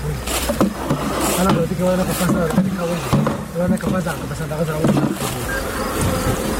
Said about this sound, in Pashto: دا په کندهار کې د دن ولسوالۍ هغه سیمه ده چې د کندهار د نورو سیمو په پرتله ډیر د شاتو د مچیو د روزنی فارمونه لري.